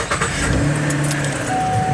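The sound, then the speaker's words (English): A car engine powering up, giving a short low rumble with a steady hum that holds for about two seconds. “Got the car all powered up, ready to go.”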